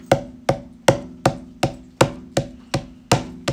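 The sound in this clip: Ten sharp, woody percussive taps play a triplet rhythm as a demonstration. The strikes are evenly spaced and steady, and each hit decays quickly.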